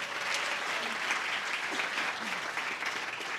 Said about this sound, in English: we'd also like to say thank you so much to you, the studio audience, who showed up to see radio being made. Give yourselves a hand, too.